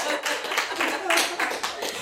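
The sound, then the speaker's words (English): Irregular hand clapping: many sharp, bright claps in uneven bursts, mixed with voices. “Clap, clap, clap.”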